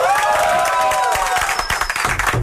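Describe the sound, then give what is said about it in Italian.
Audience applause for two guests arriving for an interview, a loud, dense burst of clapping and crowd noise, with sharper individual claps growing more distinct toward the end. “Siete contenti dell'applauso? Assolutamente. Sì. Assolutamente. Voglio il bis dell'applauso, però.”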